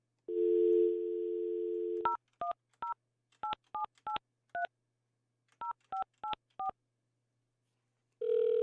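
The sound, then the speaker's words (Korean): Telephone dialing: a steady low dial tone, then eleven short touch-tone beeps in uneven groups, followed by the start of a low ringing tone at the very end, all fairly quiet. “신호 갑니다. 0584번이 신호 가요.”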